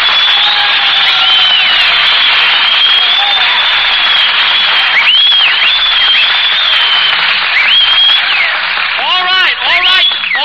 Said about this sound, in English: Stop applauding. Who's applauding?